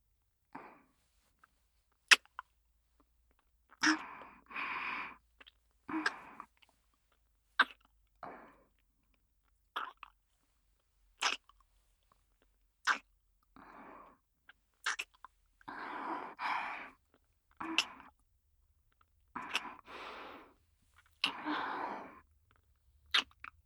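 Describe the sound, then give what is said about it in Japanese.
A welcome-home kiss comes as many soft, wet lip smacks and sharp little clicks, repeated at irregular intervals with near silence between them. Some bursts run longer and breathier, and all of it stays quiet. “これはお帰りのキスです。”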